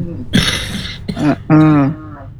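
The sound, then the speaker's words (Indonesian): A person coughing in three rough bursts, the last longer and more voiced than the first two, fairly loud with no talk over it. “Masih batuk.”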